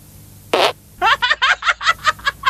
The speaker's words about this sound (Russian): Девичий пу.